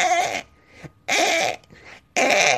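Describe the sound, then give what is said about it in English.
A voice imitates a tortoise's mating noise with three loud, strained, groaning bursts at an even pace, separated by quieter breathy sounds. “Because the tortoise was making this really funny noise. It was going,”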